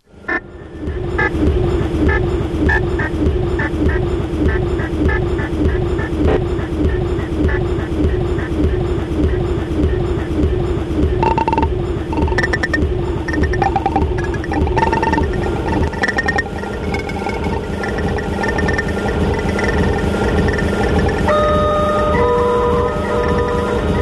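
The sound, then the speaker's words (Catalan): Rumbling New York City subway train from a field recording used in a music composition: a steady loud roar with regular rhythmic wheel clatter throughout, and higher tonal whines appearing partway through. “11 composicions basades en regravacions de camp del metro de la ciutat de Nova York”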